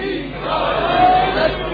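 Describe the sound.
A crowd shouts a religious slogan out of unison, a ragged, overlapping mass of voices that swells and falls.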